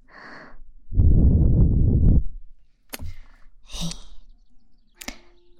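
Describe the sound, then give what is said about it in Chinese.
Breathing, led by one loud, rushing breath lasting over a second, with a few sharp clicks and a softer airy sound after it. “还有呼吸的声音”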